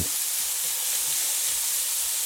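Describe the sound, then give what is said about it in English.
Onion frying in a pan over medium-high heat gives a steady, bright, hissing sizzle that stays even throughout, with no voices. “Okay, I'm going to let the onion cook there a bit.”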